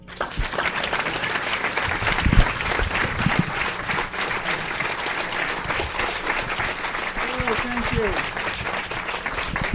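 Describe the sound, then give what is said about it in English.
An audience applauds to welcome Oscar-winning director Jonathan Demme. The clapping is dense and sustained, holding at an even level for the full ten seconds. “First of all, the acclaimed Oscar-winning director Jonathan Demme, known for his distinguished and varied films such as Silence of the Lambs, Rachel Getting Married, and Something Wild. Please help me welcome him.”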